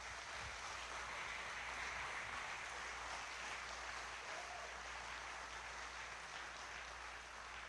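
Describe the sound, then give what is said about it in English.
Soft, steady applause from a church audience welcoming a pastor to speak, a quiet, even patter of many hands clapping without pause for several seconds. “So would you put your hands together and welcome Pastor Greg Hammond.”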